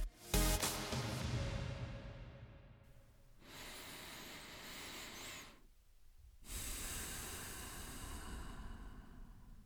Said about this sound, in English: Let's take one more deep breath together, and we'll get back to the show.